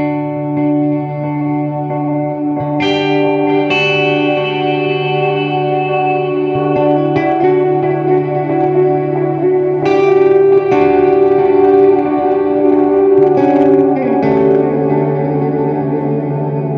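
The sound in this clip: An electric guitar runs through three effects pedals, one giving infinite sustain, to make a synth-like ambient drone. Layered sustained tones hum with reverb and echo, and several new notes swell in over them. Nobody talks.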